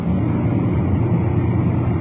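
A car's engine rumbles low and steady throughout, fairly loud and unbroken, as the car drops into second gear and slows down.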